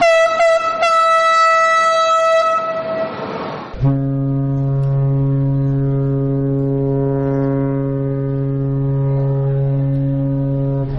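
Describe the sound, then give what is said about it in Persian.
Train and ship whistles sounding together at a commemoration: a steady, higher-pitched whistle tone holds for a few seconds, then a deep, loud, sustained horn takes over and drones on to the end. “و همزمان با آن ناقوس کلیساها سوت قطارها و کشتیها به صدا درآمد.”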